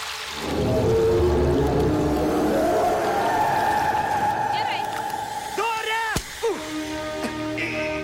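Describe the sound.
A voice imitates whale speech, stretching a loud, low, wavering moan that slowly rises in pitch. Several shorter warbling, call-like sounds follow near the end.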